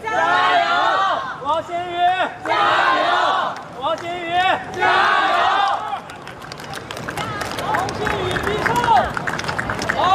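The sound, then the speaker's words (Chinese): Chinese fans in a tennis crowd cheer for Wang Xinyu as she serves for the set. Voices come first, then a loud, dense burst of crowd cheering and shouting fills the last few seconds. “现场还是有很多的这个中国的球迷啊，在给王新宇加油鼓劲儿。”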